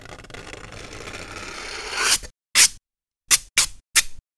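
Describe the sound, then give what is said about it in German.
The edge of a torn piece of aluminium foil is dragged slowly across cardboard, making a crinkly, hissing scrape that builds for about two seconds. Four short, sharp scraping strokes follow, separated by silence. “Ihr reißt also ein Stück Alupapier ab und zieht die Kante langsam über die Pappe. Das hört sich dann so an.”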